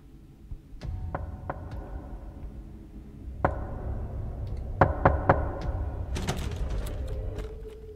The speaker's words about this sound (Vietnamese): Thì đúng thật là tiếng gõ cửa.